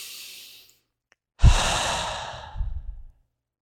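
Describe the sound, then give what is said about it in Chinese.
A single long, deep breath, taken during a guided calming exercise with a hand resting on the chest. It is a soft, airy rush that holds steady for over a second, then swells slightly near the end before stopping, with no talk. “然后做一个深呼吸”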